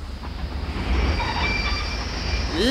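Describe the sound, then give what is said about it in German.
A train departs from a station with a loud, continuous rumble of rolling wheels. Thin, high metallic squeals from the rails run over it, and a sharp rising squeal comes near the end, with no voices. “Die Türen schließen. Vorsicht bei der Abfahrt des Zuges!”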